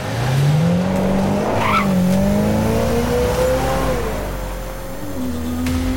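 A speeding car engine revs hard with squealing tires as the car plows through walls, machines and statues with its bright lights on. The engine tone rises and shifts while a strained squeal runs over it.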